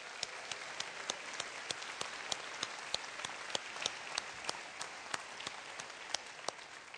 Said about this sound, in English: Can we give a hand to all the dads? Can we do that?